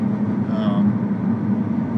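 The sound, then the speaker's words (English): Steady tire roar from a car driving over rough, noisy pavement on a Colorado road, a constant low droning hum with a voice briefly heard over it. “But this road surface is the noisiest material known to man. It really is, yeah.”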